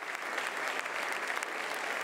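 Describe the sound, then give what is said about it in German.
Long applause greets Mario Draghi, a former university professor, in a packed university lecture hall: thick, even clapping from a large audience, sustained and uniform throughout. “Als Mario Draghi in die vollbesetzte Aula kommt, wird er mit einem langen Applaus begrüßt.”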